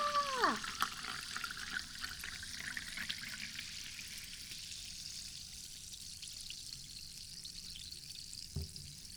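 Freshly poured carbonated drink fizzes with a steady, soft crackling hiss that holds at an even, faint level and slowly settles.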